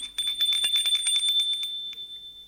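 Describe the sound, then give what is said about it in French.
A doorbell rings as someone arrives at a home: a rapid, high, metallic trilling ring that holds steady for about two seconds and then fades. “Jules sonne chez Véronique”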